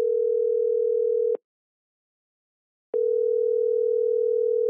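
A telephone ringing tone plays as a call is put through: a steady single-pitched tone, a pause of about a second and a half, then the same tone again. No voices are heard.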